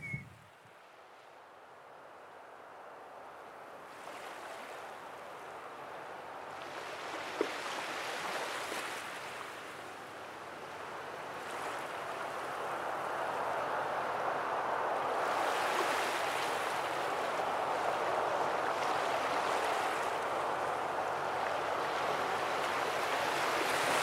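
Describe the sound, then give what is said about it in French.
Sea waves rushing in steady surf, the wash swelling and easing in slow, broad surges and growing gradually louder over the span, with no voices. “Pour finir, on va remettre un petit peu de mer.”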